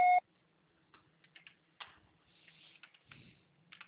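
A voicemail beep sounds once as a short, loud, steady electronic tone. A few faint, scattered clicks follow in near-silence.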